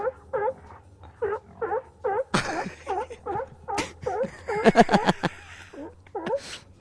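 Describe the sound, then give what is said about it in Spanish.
Sea lion calls from a sound effects record: a quick series of short, harmonic honking barks, then harsher, noisier bursts mixed with more calls. “¡Mira, los dos leones marinos! Ese es el nuestro. Escucha. Canta, amigo.”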